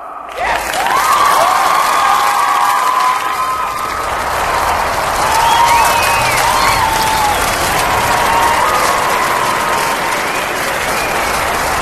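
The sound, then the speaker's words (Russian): Audience applause at a live stage show: sustained, dense clapping from a large crowd that swells at the start and holds loud and even for the whole stretch, with crowd noise mixed in. “Итак, дамы и господа, ladies and gentlemen, смотрите, аплодируйте.”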